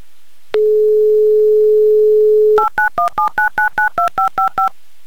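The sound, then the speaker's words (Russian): A telephone dialing sequence begins with a steady dial tone lasting about two seconds. A quick run of many touch-tone key beeps follows in an even, rapid rhythm as a number is redialed. “Все, еще раз набираю ваш номер.”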